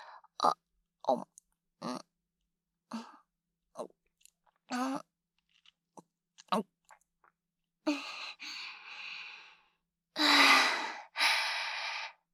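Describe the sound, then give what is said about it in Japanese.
Someone drinking, with a string of short gulping swallows followed by a few long, breathy sighs of exhaled air. “あ、飲みますので、ご覧ください。”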